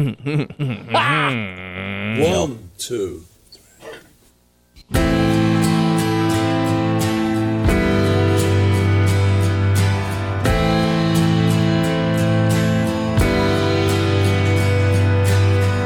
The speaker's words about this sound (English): So they did that, isolated the vocals, then put the song back together. Do you want to hear it?